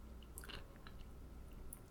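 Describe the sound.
Soft, close chewing of snacks, with a few faint crunchy bites over a low, steady background.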